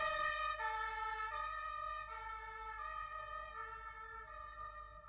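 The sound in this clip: Ambulance siren as the vehicle drives away, a bright, harmonically rich wail that sounds alone and fades steadily over several seconds.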